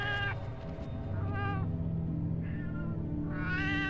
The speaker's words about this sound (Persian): تو همین حینم رو به من میو میو میکرد